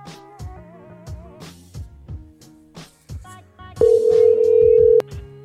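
A telephone speed-dialing a number: a scatter of short electronic tones and clicks, then one loud, steady high tone that holds for about a second before cutting off abruptly.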